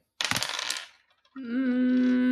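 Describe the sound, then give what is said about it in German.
Dice rolled for a character's emotion during a tabletop role-playing game: a short burst of rattling clatter lasting under a second, then after a brief pause a steady, sustained harmonic tone. “Ich würfel nochmal auf meine Emotion.”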